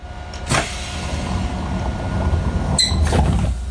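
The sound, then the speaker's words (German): Pneumatic doors of an older VT2E railcar, worked by compressed air, open and close: two hissing, clunking bursts a couple of seconds apart over a steady low rumble. “Der VT2E arbeitet sehr viel mit Druckluft. Das ist bei älteren Eisenbahnfahrzeugen durchaus so üblich. Wir machen die Tür auf und wieder zu.”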